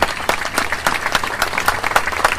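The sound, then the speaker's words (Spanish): Applause from a standing audience honouring martyrs at a commemorative rally: dense, continuous clapping from many hands, even and fairly loud throughout, with no single claps standing out. “brindémosle un fuerte aplauso, si nos ponemos de pie, vamos a brindar un fuerte aplauso a nuestros mártires”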